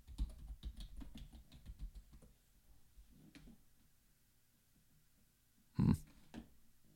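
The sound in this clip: Typing on a computer keyboard: a quick, steady burst of keystrokes that thins out into a few scattered taps, with one louder knock near the end.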